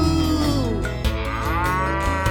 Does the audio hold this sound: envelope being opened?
no